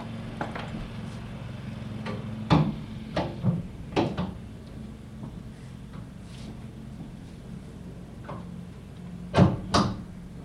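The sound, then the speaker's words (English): Someone closes a window against noise from street repair work outside, making a few knocks and clunks over a steady low rumble, with a sharper pair of bangs near the end. “I think I'm going to close the window.”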